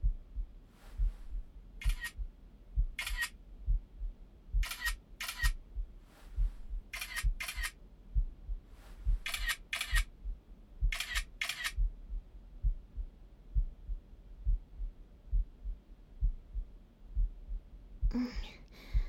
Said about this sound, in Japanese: ほら、じっとしてないでさ、写真撮ってよ。